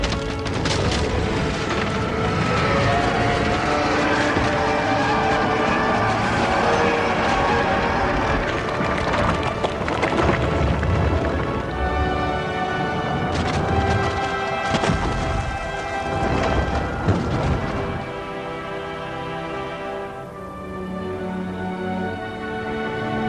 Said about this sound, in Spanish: La base de la torre se resquebraja y se derrumba.